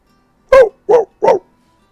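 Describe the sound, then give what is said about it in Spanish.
A dog barking three short, sharp times in quick succession, loud and clear, with no voices. “Y desde allá el perro ladra.”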